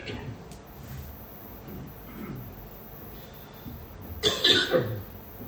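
Coughing and throat clearing from a tickle in the throat: one loud, rough cluster of bursts near the end, after a stretch of quieter low background noise.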